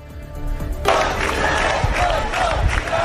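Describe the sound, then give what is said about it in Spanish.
Tens of thousands of protesters in Barcelona roar and chant together, a loud, dense wall of shouting voices that surges in suddenly and holds steady. “Bueno, decenas de miles de personas en Barcelona, este es el sonido.”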